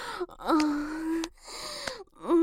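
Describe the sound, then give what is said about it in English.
A person moans and groans during a sexual encounter, with a few drawn-out, breathy vocal sounds whose pitch slides and bends, separated by short gasping pauses. “I love hearing you moan and groan for me.”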